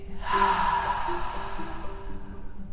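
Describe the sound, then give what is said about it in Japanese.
One deep, forceful breath, drawn in through the nose and blown out through the mouth, heard as a single breathy rush that swells quickly and then fades slowly over about two seconds, with no talking. “思いっきり吸って思いっきり吐いて思いっきり鼻から吸って思いっきり口から吐いて”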